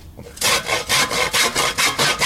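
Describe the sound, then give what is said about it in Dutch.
A hand saw cuts through the object that people are sitting on, with loud, rhythmic back-and-forth strokes in quick succession. There is no talking. “ik vind we moeten gewoon dat ding waar we op zitten even omzagen. Is goed. Dan haal ik even de zaag.”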